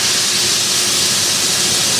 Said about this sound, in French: Dans la gare où les passants se font rares, quelques locomotives.